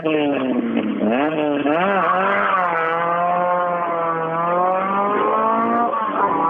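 A rally car engine revs up at the start of a stage, its pitch climbing sharply in the first two seconds before holding loud, high, steady revs with a slight waver. No other sound is heard.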